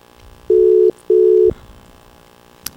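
A telephone ringing tone sounds while calling someone, two steady mid-pitched beeps in quick succession, followed by quiet and a brief click at the end.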